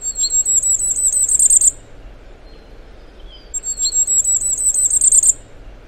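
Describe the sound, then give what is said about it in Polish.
Firecrest song: two bursts of very high, thin, rapidly repeated notes, each building to a louder run at the end. A gap of low background noise separates the bursts. “A teraz głos Zniczka.”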